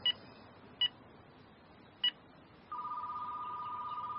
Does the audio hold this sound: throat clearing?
no